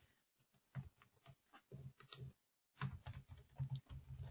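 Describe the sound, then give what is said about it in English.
Rapid typing on a computer keyboard: many quick clicks in bursts, broken by a short silent pause before the keystrokes resume, faint and with no voices. “I'm writing it into chat now.”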